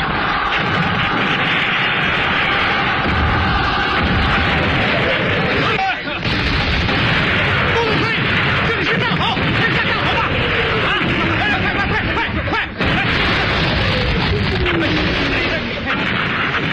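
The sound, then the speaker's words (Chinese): Artillery fire and explosions roar across a battlefield during an assault on entrenched positions, a dense, continuous, loud rumbling barrage broken by a couple of sharper blasts. “陈官庄炮火连天，解放军冲过敌人阵地铁丝网”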